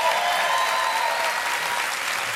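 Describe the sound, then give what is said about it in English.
Applause from the audience at a live on-stage interview. Many hands clap in a full, even roar that holds steady throughout, with no talk over it. “They're applauding your challenging experience. Isn't that nice?”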